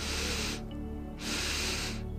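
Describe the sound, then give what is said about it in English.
Breathing during a guided deep sleep meditation, sipping air in through the nose and exhaling through the mouth: two long, soft, airy rushes of breath separated by a short pause, with no talk. “now taking 2 sips of air in through the nose and exhale out of the mouth”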